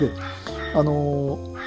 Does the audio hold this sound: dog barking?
yes